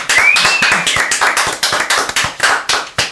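Hands clap to welcome a guest in a quick, fairly loud run of sharp, uneven claps, with no voices.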